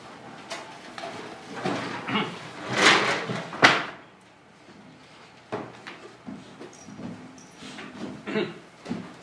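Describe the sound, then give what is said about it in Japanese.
A window is slid shut during a church service, making scraping, rattling rumbles that build to a couple of bumps. Quieter knocks and shuffling follow. “はい、では窓を閉めていただけますか。元の通り。”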